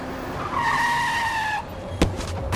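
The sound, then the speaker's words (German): Tires screech as a car races toward someone on a small residential street in a new housing estate. One sustained, high squeal lasts about a second, then a single short, sharp knock follows. No one speaks. “Wie aus dem Nichts kam der Wagen auf mich zugerast.”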